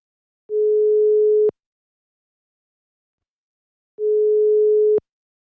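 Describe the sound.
Telephone ringback tone for an outgoing call: two steady, mid-pitched one-second beeps separated by a few seconds of silence, with no other sound.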